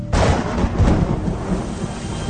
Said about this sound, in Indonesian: terdengar di luar sana suara hujan. Iya, tiba-tiba saja hujan besar mengguyur di luar.